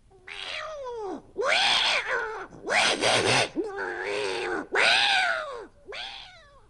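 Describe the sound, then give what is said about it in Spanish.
A cat meows six times in a row, each call drawn out and arching in pitch, loud and clear with short gaps between them. “ese maullido me pone histérica”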